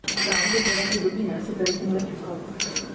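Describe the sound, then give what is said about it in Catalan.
Glasses clinking together in a toast among friends: a few bright, ringing clinks, the loudest at the start and a few lighter ones later, under ongoing talk. “això eren unes copes, jo vaig dir que era com un cambrer recollint les copes així amb la mà. Era un brindis entre amics.”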